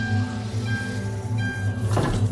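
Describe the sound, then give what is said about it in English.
An East Midlands train from King's Cross to Edinburgh: a steady low rumble with sustained whining motor tones that shift slightly in pitch, and a short rush of hissing noise near the end. “Welcome aboard the East Midlands train service to Edinburgh. We'll be leaving King's Cross at 1 o'clock”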